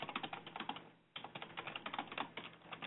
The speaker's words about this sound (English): Am I able to type in there or just you? Oh, there, you've got it.